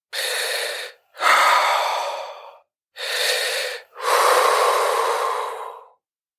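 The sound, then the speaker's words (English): A person gasps and struggles for breath in terror. Four loud, ragged breaths alternate short and long with brief gaps between them, and there is no speech. “Suddenly, his eyes filled with terror, and he struggled for breath.”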